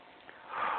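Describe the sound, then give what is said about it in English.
A single breath drawn in through the nose during a guided meditation, a soft, airy sniff that swells toward its end and sounds muffled, lacking high treble. “You breathe in and breathe out. Breathe in”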